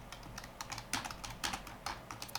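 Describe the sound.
Typing on a computer keyboard, one of two computers in use, with brisk, irregular clusters of crisp keystrokes tapping along steadily on their own without any voices.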